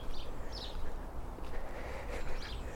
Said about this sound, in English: just the sparrows, the house sparrows around the buildings here. They so love being beside humans.